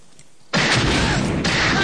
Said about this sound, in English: together they shoot the tanker to Kingdom Come. It explodes in a massive fireball which makes their jaws drop.